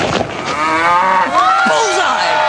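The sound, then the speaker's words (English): Cows moo loudly in a comic sound-effect bit about cloned cows, with drawn-out, droning calls whose pitch bends and glides, overlapping one another. “I knew we'd find a use for those cloned cows. Martin Malloy cow drops.”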